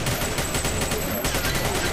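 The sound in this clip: Rapid machine-gun fire in the arena shooter video game Xonotic, a loud, continuous stream of fast shots with a brief break just past the midpoint before the burst resumes.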